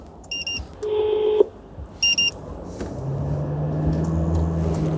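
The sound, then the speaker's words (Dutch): Electronic phone tones inside a road inspector's vehicle on a motorway: two short high beep bursts and one longer steady tone. Constant engine and road rumble runs underneath. “Dan ga ik ze nog even bellen dat ik het weg heb gehaald.”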